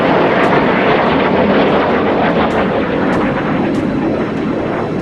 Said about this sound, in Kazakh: Төңкерісшілердің бақылауындағы F-16 жойғыш ұшақтары халықты қорқыту мақсатында Анкара аспанында төмен биіктікте ұша бастады.